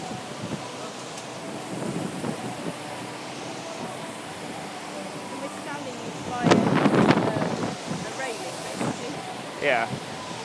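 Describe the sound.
Wind blowing outdoors, a steady rushing roar buffeting the microphone with a stronger gust partway through. Voices can be heard under the noise.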